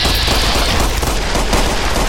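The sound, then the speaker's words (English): Rapid gunfire in a video game as bullets hit the player, a dense, unbroken stream of shots at steady, loud volume with no pauses. “Alright, this guy's hitting me with a lot of bullets.”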